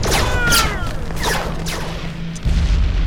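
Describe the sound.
Battle gunfire during fighting in Jerusalem: a few heavy, loud booming blasts and whooshing bursts over a constant low rumble, with no pause across the short stretch.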